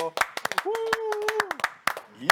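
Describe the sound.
Hand clapping from an audience welcoming a guest: sharp, uneven claps in a loose stream rather than full applause, with a voice speaking briefly among them.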